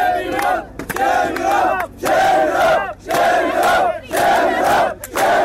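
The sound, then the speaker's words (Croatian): A crowd of migrants at the Hungarian border fence chants the protest slogan "Shame on you, Europe" in loud unison, repeating the same phrase in a steady rhythm with brief gaps between. “Usledili su aplauz i skandiranje iste poruke.”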